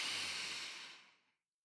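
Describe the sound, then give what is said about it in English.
A deep breath drawn in, heard as a single soft, airy hiss that holds steady and then tapers away into silence, with no other sound around it. “we're going to take a deep breath in and out.”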